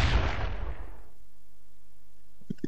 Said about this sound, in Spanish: Es un cañón. Un viejo y tradicional cañón.